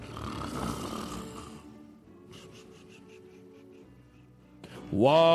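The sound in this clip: Rough, buzzing snores from a man in the front row of a live comedy show audience. Louder snoring comes first, then quieter breathy stretches, and a sudden loud vocal outburst follows at the end.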